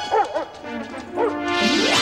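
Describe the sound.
A dog tracking a scent trail gives a few short, high yelping barks, unevenly spaced over a few seconds, followed by a swell of broad rushing noise.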